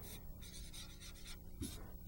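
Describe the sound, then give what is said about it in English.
Faint scratchy strokes of handwriting come in a few short bursts over a soft background hiss. “I'm just going to write it over here.”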